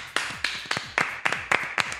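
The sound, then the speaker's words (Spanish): Seven sharp hand claps in a slow, evenly spaced rhythm, each crisp strike followed by a brief decay, with quiet gaps between them. “Yo creo que esto se merece un aplauso.”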